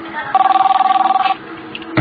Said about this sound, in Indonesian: Sampai ketika kami sedang menonton, telepon pun berdering.